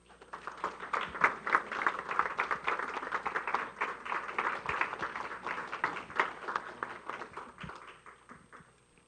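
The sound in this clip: An audience applauds to welcome speakers: many hands clapping in a dense, continuous patter for several seconds, easing off toward the end.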